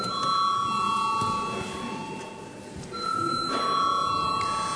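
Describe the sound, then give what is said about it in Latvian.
An electric bell rings in the Latvian parliament to call members to a vote: a steady, shrill ringing that dips briefly in the middle before returning at full strength, over a background of room noise. “Paldies, lūdzu zvanu.”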